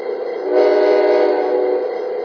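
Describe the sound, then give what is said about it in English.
A train sounds a steady, loud horn or whistle chord that holds unbroken for about two seconds. “Warren East train.”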